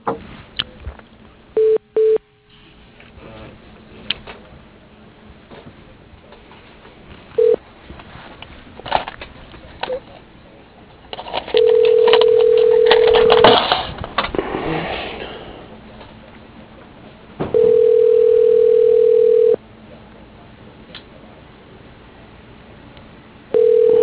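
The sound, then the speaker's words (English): Telephone tones as a call is transferred to voicemail: a few short beeps, then long, steady, even-pitched tones repeating with gaps, over a faint line hiss. “Let me transfer you to his voicemail.”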